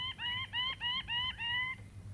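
A wild male bird of paradise shrieks in display with ruby plumes raised: a rapid, evenly spaced series of harsh, nasal calls, fairly faint over a low hum, then a sudden stop.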